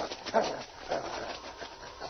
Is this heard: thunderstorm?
no